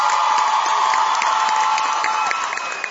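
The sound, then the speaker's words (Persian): An audience applauding and cheering during a music concert, dense and steady clapping mixed with crowd noise that eases slightly near the end. “بریم سراغ این آهنگ دیگه محسن بخونه من چی بگم به افتخارش دست بزن”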